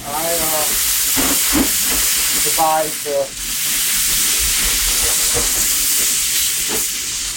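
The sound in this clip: Water sprayed onto a hot grill with meat and flames sets off loud, continuous hissing steam and sizzle that lasts throughout, with one brief dip partway through.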